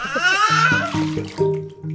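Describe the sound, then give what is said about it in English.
Water splashing in a bathtub as a young boy plays in it at home, heard under his loud, high-pitched babbling and crying-like vocal sounds, which come in several bursts throughout. “I am sitting next to a young man who is in the tub, misbehaving.”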